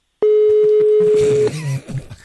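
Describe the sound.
A telephone tone sounds as a call is dialed: one steady mid-pitched tone lasting a little over a second, then brief muffled clicks and noise.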